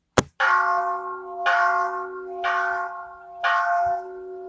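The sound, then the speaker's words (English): A Buddhist meditation bell played from a phone app follows a short click, struck four times at an even pace. Each strike gives a bright, sustained ring that carries into the next. “You got that Buddhist bell on point.”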